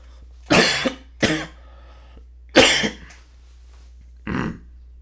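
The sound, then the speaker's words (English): Four separate coughs from a person choking on sugar from gummy bears, loud harsh bursts spaced unevenly with quiet gaps between them and no talking. “I'm still choking on sugar from these gummy bears.”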